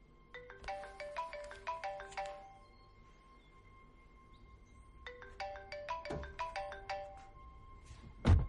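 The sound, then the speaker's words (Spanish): Mobile phone ringtone from an incoming call, the phone lying under a seat in a vehicle: two bursts of bright, repeating melodic electronic tones separated by a short pause, ending with a brief low thump. “El móvil de Silvia está bajo un asiento. Llamada entrante, mamá.”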